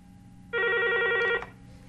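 A telephone rings for an incoming call with a single bright electronic ring of just under a second, rich in buzzy overtones, standing out over a quiet low background hum.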